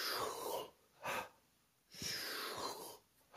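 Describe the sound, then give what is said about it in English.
Breathing exercise of deep inhales through stomach and chest followed by quick releases: loud, airy breaths alternate long and short, with brief quiet gaps between them and no talk. “you do 20, 30 to 40 cycles of deep inhale through stomach and chest, and then a quick release. So just doing a...”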